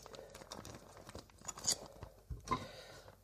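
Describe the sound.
Mozzarella being cut into small pieces: many quick, soft cuts and taps at an uneven rhythm, fairly quiet and without talk.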